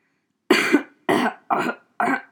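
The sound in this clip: Four coughs in a row, each a short, harsh, breathy burst of similar loudness with brief gaps between them, heard alone without talk.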